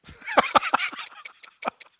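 A clock ticks in crisp, sharp, high clicks at a steady, brisk pace, a doom-clock sound effect built from many evenly spaced ticks.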